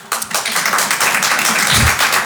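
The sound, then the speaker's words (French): Sparse applause comes from a small audience of about seven at a stand-up comedy show, a thin patter of scattered claps that holds at a moderate level. “Qui me connaît par applaudissement?”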